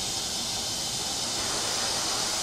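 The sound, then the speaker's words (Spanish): A steady, even hiss from the stable blue flame of an oxy-fuel welding and cutting torch, continuous and unchanging throughout. “Tenemos que conseguir una llama que sea estable y de color azul.”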